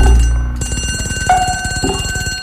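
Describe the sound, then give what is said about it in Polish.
Telephone ringing in a rapid, continuous metallic trill, loud and unbroken for the whole clip, with no voices. “Telefon.”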